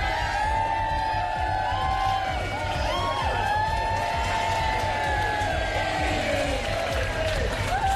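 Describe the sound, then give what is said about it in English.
A crowd of friends and family cheers and whoops to welcome Team GB's Olympic athletes back at Heathrow airport, a steady, loud wash of voices and shouts that continues without a break. “A hero's welcome from their friends and family when they arrived at Heathrow.”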